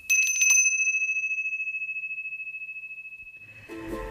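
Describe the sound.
A small bell rings once with a bright, clear strike, then a long, shimmering, pulsing tone that slowly fades over several seconds. A brief rustling noise follows at the end.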